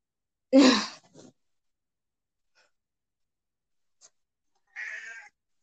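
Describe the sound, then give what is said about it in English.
A house cat meows in a few short bursts, the first cry loud and full, then a softer short call, a long quiet gap and one more brief meow. “I am so sorry. That is my cat. Get out.”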